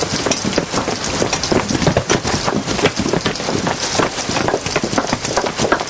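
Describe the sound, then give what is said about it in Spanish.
Rain falls outside in a steady, dense hiss of drops that stays loud and even throughout, with no voices. “Fuera está lloviendo.”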